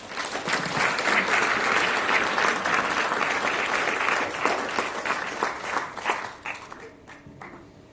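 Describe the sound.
Audience applause welcomes a speaker to an evening lecture: dense, steady clapping holds loud for about six seconds, then thins and fades to a few scattered claps at the end.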